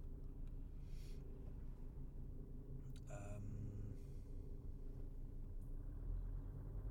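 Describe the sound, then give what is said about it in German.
Low, steady engine rumble of a car standing still in a traffic jam. The drone holds evenly throughout with no other clear sounds. “Jetzt stehe ich auch im Stau oder so.”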